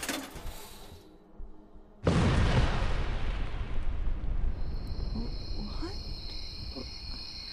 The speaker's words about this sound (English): There is no way I missed. Not with a blast radius of a mini nuke.